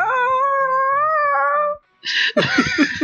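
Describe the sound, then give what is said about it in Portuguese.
A person's voice imitates a cat in heat meowing: a long, loud, wavering yowl that holds steady before breaking off, then a short, higher-pitched cry and a rougher, strained wail. “Tu começa a fazer, então, o teu miado de gata no cio.”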